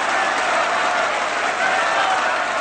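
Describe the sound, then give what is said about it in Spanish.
Opera audience applauding enthusiastically after a performance in the 1984 film Amadeus, set in the 18th century: a dense, even wash of clapping from a large crowd that stays loud throughout. “Salieri mira a Mozart que aplaude entusiasmado también de pie.”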